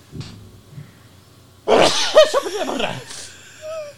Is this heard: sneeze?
yes

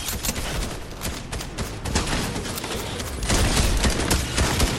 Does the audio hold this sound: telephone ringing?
no

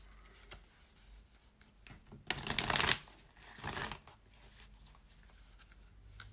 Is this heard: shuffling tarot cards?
yes

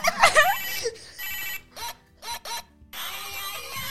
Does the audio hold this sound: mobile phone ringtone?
yes

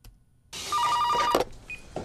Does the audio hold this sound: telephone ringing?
yes

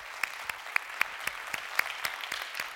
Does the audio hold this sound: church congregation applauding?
yes

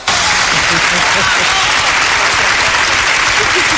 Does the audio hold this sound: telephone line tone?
no

